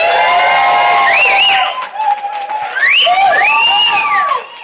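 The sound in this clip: A live studio audience at a web series fan festival cheers and whoops loudly. High, wavering whoops ride over sustained crowd noise, which dips briefly midway and then surges again before easing off at the end.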